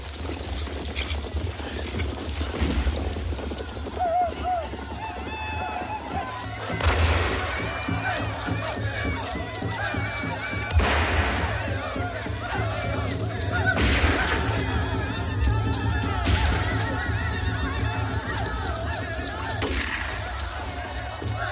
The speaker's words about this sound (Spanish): Por la noche, la tribu baila en torno a las ojeras disparando sus rifles. Llegan varios jinetes.